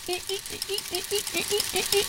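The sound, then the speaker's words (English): Squeaky wheels of a small delivery robot rolling by: a steady, evenly spaced train of many short, mid-pitched squeaks with a rhythmic clicking beneath, moderately loud and without talk. “that's the sound of the squeaky wheels. A little delivery robot just drives by.”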